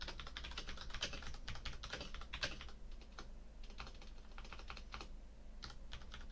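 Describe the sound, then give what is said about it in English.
Typing on a computer keyboard: many quick, faint clicks and taps of keys, arrow and delete presses and shortcuts, in irregular bursts with no voices. “I'm hitting the back arrow, and then I'm going along, and I'm hitting the delete, and I'm doing Control A, then I'm doing Control C, and I'm doing this, and then I'm typing.”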